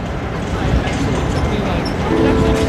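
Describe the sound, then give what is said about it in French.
A train travels on the railway line to Vienna, giving a dense, steady rumble of rolling noise that holds at an even loudness throughout. “Cette voie de chemin de fer qui m'amène à Vienne est vraisemblablement celle que mon arrière-grand-père maternel a empruntée il y a un peu plus d'un siècle.”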